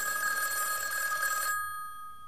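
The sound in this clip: A telephone bell rings at a nuclear test site with a bright, steady, buzzing ring that lasts about one and a half seconds, then stops abruptly, leaving only faint hiss. No voices are heard.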